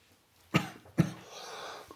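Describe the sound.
Two short, harsh coughs about half a second apart, fairly quiet, followed by a soft breathy rasp that fades out.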